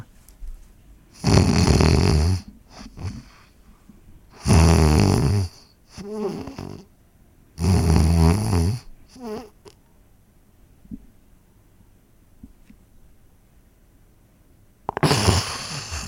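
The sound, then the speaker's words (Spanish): A voice imitates snoring and sleep apnea breathing: several loud, rough, throaty snores separated by quiet stretches of faint breathing and a long silent pause before a final harsh snore. “en lugar de esa exhalación profunda que hiciste, viene un ronquido más fuerte así, que rompe la apnea.”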